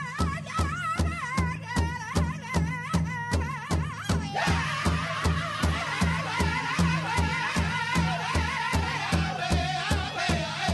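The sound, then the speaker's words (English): A Native American powwow group performs at the Gathering of Nations, with a steady run of many evenly spaced drumbeats beneath high, wavering group singing that carries on throughout. “That's just one of the groups performing at the Gathering of Nations, the country's largest Native American powwow.”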